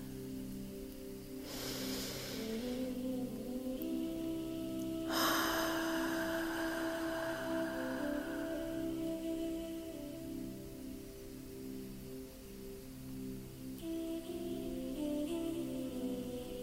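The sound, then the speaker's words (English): Slow, deep breathing, drawn in through the nose and let out through the mouth, as two soft airy rushes over steady sustained tones with no talk. “Breathing in through your nose and then out through your mouth.”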